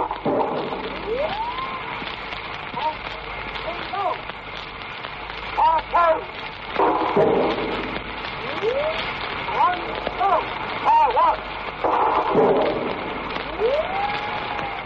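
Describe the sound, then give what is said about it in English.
Gas shell barrage fired by the British Royal Garrison Artillery near Lille in October 1918, with repeated whistling tones that rise and fall over dense, crackling noise and occasional heavier bursts. “Here is a remarkable recording of the gas shell attack made by the British Royal Garrison Artillery just outside Lille in October of 1918.”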